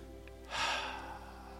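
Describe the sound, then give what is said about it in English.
A single deep cleansing breath, one soft breathy rush lasting about half a second, rising quickly and then fading, over a faint steady hum with no talk. “deep cleansing breath”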